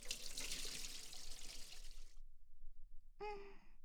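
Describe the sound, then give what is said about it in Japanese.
Hot water poured over a person's head during hair washing: a steady rushing splash lasts about two seconds, then stops abruptly, and after a short silence a brief vocal gasp follows. “お湯をかけるから、目をつむって。いい？はーい！ジャバーン！”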